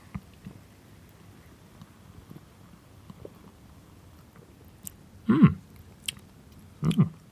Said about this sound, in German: Und jetzt probieren wir mal einen Schluck.